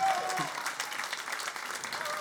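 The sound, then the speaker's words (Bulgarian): Audience applause at a live music show: a dense, steady patter of clapping that carries on throughout without a clear rise or fade. “Аплодисменти за тези двама разбойници.”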